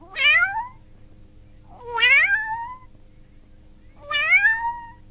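A kitten meows three times at even intervals. Each meow is bright, high and drawn out, with clear pauses between calls.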